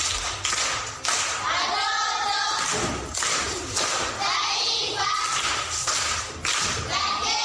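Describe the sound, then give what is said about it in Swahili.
Clapping at a primary school riddle session, applauding a pupil's correct answer: dense, irregular claps and soft thuds continue for several seconds, with voices heard in between. “Makofi kwa shangazi.”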